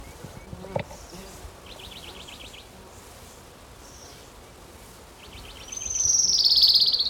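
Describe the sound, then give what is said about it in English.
Orange-crowned Warbler song: a few thin, high trilled phrases over a steady noisy background, ending in a louder, high buzzy trill. “His Orange Crown Warbler, number 2.”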